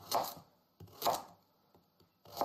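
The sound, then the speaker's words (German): A knife slices carrots into thin, even rounds: a few crisp cuts alternate with softer taps in an uneven rhythm, quiet and with no talking. “ich bin jetzt ein großer Experte, da drin wirklich gleichmäßige Scheiben von so einer Karotte abzuschneiden”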